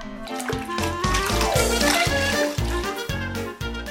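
A water washing sound effect in a children's word story, with sloshing, splashing water over a steady tonal musical backing with a regular beat.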